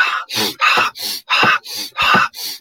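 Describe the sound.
Forceful breathing exercise: a long run of sharp, loud, breathy bursts of air pushed in and out at a quick, steady rhythm, each breath harsh and rasping, with no talking.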